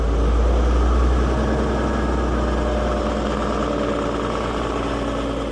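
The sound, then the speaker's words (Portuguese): A steady, low engine rumble from an old Volga car driving slowly. The drone holds constant and fairly loud throughout, with no voices. “Devagarinho, lá seguiu o Volguinha, até Espinho”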